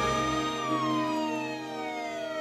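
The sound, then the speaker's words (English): A police car siren wails as a steady tone that slowly falls in pitch, fairly quiet, with no voices. “Later, two police cars jerk to a halt in front of the Murphy house.”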